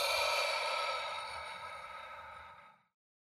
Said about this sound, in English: let's do a quick mindfulness exercise where we begin by inhaling through our nose and exhaling through our mouth